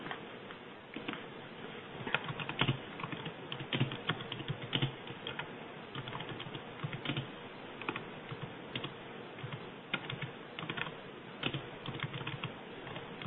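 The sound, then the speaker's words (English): Computer keyboard typing as a message is entered into a chat box: many quick keystrokes in an uneven, continuous clatter, fairly quiet and without speech. “There you go, I just typed it in the chat box for you.”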